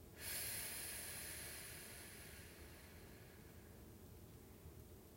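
A slow breath taken during a relaxation breathing exercise, a soft airy hiss that swells quickly and then tapers off gradually over several seconds.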